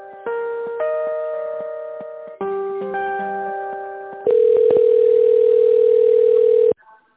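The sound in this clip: Telephone line tones play while a business call is being transferred. Sustained electronic tones come in a few steady blocks that change pitch between them. The last block is louder and held longer before it cuts off.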